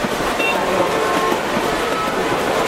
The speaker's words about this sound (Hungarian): A mozdonyon azért van két ember, mert ott akkora zaj, hogy egy ember el sem tudná viselni.